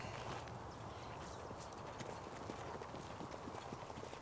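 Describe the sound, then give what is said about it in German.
Hooves of a racehorse trotting on a hard track, moving as if sore with a shortened trot: a steady, busy clip-clop that runs throughout at an even level. “Viehgut läuft, als hätte er Schmerzen. Wie kommen Sie darauf? Er schont sich auf der harten Bahn. Der Kopf kommt höher. Der Trab wird kürzer.”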